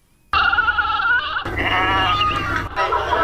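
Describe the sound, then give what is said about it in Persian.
Livestock bleat loudly at an animal market in the 500 Famili area of Kabul in the days before Eid al-Adha. Several long, wavering goat- or sheep-like bleats follow one another almost without pause after a brief quiet start. “گزارش با صدای مواشی آغاز می شود.”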